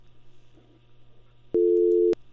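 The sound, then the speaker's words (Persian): A busy tone on a disconnected phone line: a single loud, steady electronic beep of about half a second, sounding abruptly over a faint low hum and soft background noise, then cutting off. “لاین قطع شو فکر کنم”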